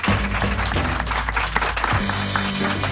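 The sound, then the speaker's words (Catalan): An audience applauds musicians at a jazz club, with dense, steady clapping that holds at a fairly loud level for the whole stretch. “Un aplaudiment fort!”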